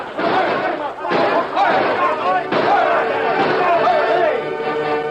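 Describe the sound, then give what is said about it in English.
Gunfire sound effects in a radio drama battle between a gang and defending ranchers: a few sharp, loud bangs crack through a constant din of shouting men's voices. “Most of the gang are attacking here. Open fire, men!”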